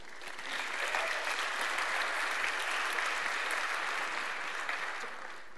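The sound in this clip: An audience applauds to welcome a couple onto the stage. The clapping swells in quickly, then holds as a dense, steady wash of hand claps for several seconds, with no voices standing out.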